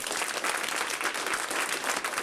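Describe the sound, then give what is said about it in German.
Applause for someone standing on stage: a dense, even wash of many hands clapping at once, steady and fairly loud from start to finish with no voices on top. “Jemand steht auf der Bühne und bekommt Applaus. Das freut ihn.”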